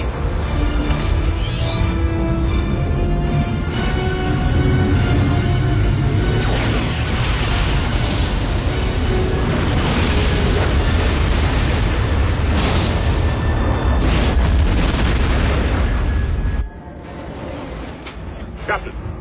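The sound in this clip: A starship's ram scoop being blown out makes a sustained, loud roaring explosion that rumbles on for many seconds. It then cuts off abruptly to a quieter hum.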